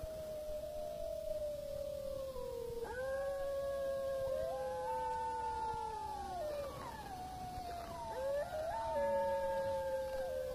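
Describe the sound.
Several wolves howl together in long, sustained, overlapping tones that glide and waver in pitch, with fresh voices joining partway through and no talk.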